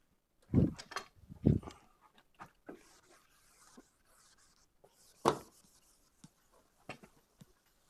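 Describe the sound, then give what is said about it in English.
Eraser scrubbing writing off a board during a physics lecture, faint irregular rubbing strokes with a few sharper, louder swipes scattered among quieter scraping. “So in particular, I have to erase.”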